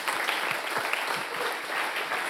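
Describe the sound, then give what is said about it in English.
An audience applauds: dense, steady clapping that continues throughout at a fairly soft level, with no voices standing out. “let's just give one more round of applause to everyone that shared.”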